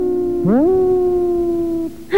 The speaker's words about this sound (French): Et ça, c'est quoi? Ça, c'est un loup.